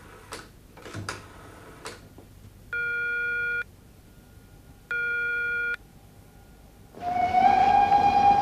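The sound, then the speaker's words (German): Railway sounds for an express train bound for Rostock: a few faint ticks, two steady electronic beeps, then a loud, rushing train noise carrying a high rising whine. “Zum D-Zug nach Rostock, bitte ein.”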